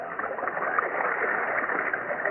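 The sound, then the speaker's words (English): Irrigation water pouring across dry farmland through channels, a steady, continuous rushing hiss of flowing water with no distinct splashes. “Look at the water pouring across our dry land, Way. They say this irrigation system will keep our land well watered all through the season.”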